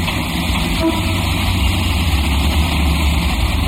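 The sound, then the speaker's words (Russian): A car parking at a building entrance gives a steady, loud low engine rumble with a continuous deep drone and a fine, even flutter, with no clear change in pitch. “К подъезду паркуется машина.”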